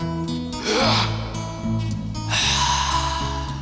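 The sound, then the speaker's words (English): Heavy, airy breathing of a creature in the dark, with drawn-out gasping breaths rising over sustained low musical tones and lingering under them. “Can you hear its breath? Creaking on the floorboard.”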